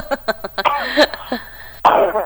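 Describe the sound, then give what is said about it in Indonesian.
A person with a recurring cough blamed on hot, dry weather coughs: a few short, sharp hacks in quick succession, then a louder, rougher burst after a brief pause. “Iya, aku batuk sudah tak obatkan sembuh. Batuk lagi, ya, kan karena memang cuacanya juga ya Mbok ya.”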